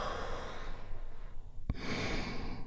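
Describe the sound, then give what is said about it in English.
A slow, deep breath drawn in during a guided relaxation, then a brief click and a long, steady exhale, soft and breathy with no talk. “We do this by taking a big, deep, healing breath right now. Here we go, and release.”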